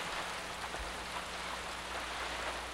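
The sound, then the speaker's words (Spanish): Steady rain falling, heard alone as a continuous, even hiss with no clear individual drops and no voices. “No deja de llover.”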